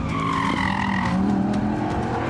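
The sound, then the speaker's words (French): Engine of an Audi race car driven hard on a circuit, with tires squealing as it slides close to the barrier; a loud, steady drone with layered tonal bands that shift slightly in pitch throughout. “c'est très difficile de la faire décrocher cette Audi. C'est pas la voiture la plus joueuse du train arrière, mais c'est certainement l'une des plus efficaces. Oh, ça sort au ras du rail.”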